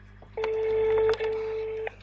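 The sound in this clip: A telephone ringback tone heard on an outgoing call: one steady, mid-pitched beep lasting about a second and a half, clear above a faint line hiss, with no talk.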